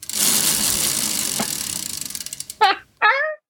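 A prize wheel spins with rapid ratcheting clicks that gradually space out as it slows, then two brief voiced exclamations follow once it stops.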